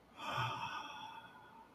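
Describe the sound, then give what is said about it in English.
A single deep breath, drawn in through the nose and let out through the mouth, an airy, fairly quiet rush that swells and then fades over about a second and a half, with no talk. “Now let's take a few deep breaths. Inhale through the nose, exhale through the mouth.”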